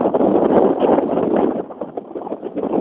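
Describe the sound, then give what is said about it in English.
Wind blows outdoors on a breezy day as trees sway, buffeting the microphone with a steady rushing roar. It is loudest in the first half, then eases into an uneven, fluctuating gusting. “so I hope it's not too bad in the head. I suspect that it is. It's pretty breezy.”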